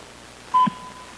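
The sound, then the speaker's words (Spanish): A radio time signal tone marking the exact time: one short, clean mid-high beep that stands out clearly over faint steady background hiss. “Al oír el tono serán las 6:26, 0 segundos.”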